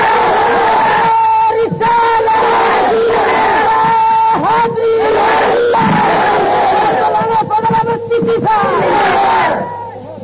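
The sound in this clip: Crowd chanting the takbir, Allahu Akbar, in loud unison shouts that come in repeated surging waves over a steady murmur of many voices, fading toward the end.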